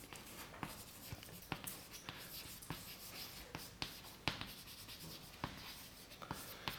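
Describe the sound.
Writing on a board during a university lecture on black-box optimization: many short, scratchy strokes in a steady, irregular run, faint and without anyone talking.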